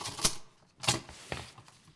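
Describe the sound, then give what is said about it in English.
Sharp mechanical key strikes come from an Olivetti Lettera 22 manual portable typewriter, a few fairly faint clacks spaced irregularly with quieter rattles between them. “One of the most precious things is this Olivetti La Terra 22 manual portable typewriter. It's quite heavy”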